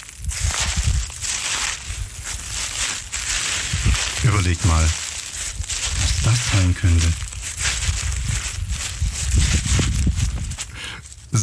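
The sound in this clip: Crunching, rustling footsteps walk through nature in summer, with a continuous dry crackle from start to end. People talk briefly over the steps.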